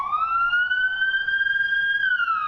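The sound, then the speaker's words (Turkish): An ambulance siren on an emergency run held up by badly parked cars sounds one long, loud wailing tone that climbs slowly and drops at the end, with no other sounds. “Ambulans şu anda hastaya ulaşmak üzere yola çıktı ama hatalı parklar yüzünden ilerleyemiyor.”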